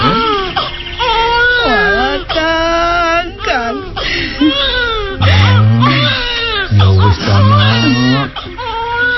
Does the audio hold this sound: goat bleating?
no